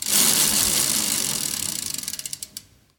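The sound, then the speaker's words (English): An ingredient prize wheel spun during a barbecue cooking chat gives a rapid ratcheting clatter. The clicks slow and spread apart as the wheel loses speed, ending in a few last distinct ticks. “And in your mind, when I give this a spin, have an ingredient ready. So let's give it a go.”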